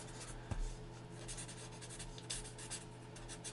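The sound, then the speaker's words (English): Faint scratching of a pen writing on paper, soft and uneven strokes over a low steady hum. “I'm writing it all down.”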